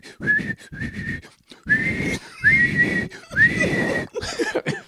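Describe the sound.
A voice imitates a blown whistle with several short, shrill whistled bursts separated by brief gaps, over breathy background noise.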